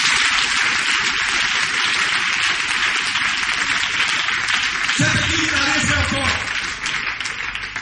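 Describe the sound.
A church audience in Côte d'Ivoire acclaims Jesus with cheers and applause, a dense, loud wash of clapping and shouting that runs throughout, with a voice briefly calling out over it near the end.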